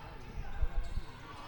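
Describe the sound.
A basketball dribbled up the court during a women's game: a few dull, low bounces at a steady pace, faint and muffled.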